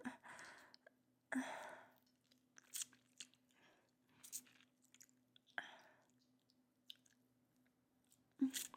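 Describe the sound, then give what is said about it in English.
Chewing while tasting sweet food: soft, irregular wet bites and crunches separated by quiet gaps, faint over a low steady hum. “Okay, I'm gonna have a taste if you don't mind.”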